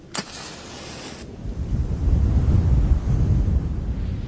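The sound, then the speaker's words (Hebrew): A strong gust of wind blowing out a candle: a brief hiss at the start, then a low, rushing roar that swells and holds steady to the end. “רק סיימתי את דבריי, רוח חזקה באה וחיבטה לי את הנר.”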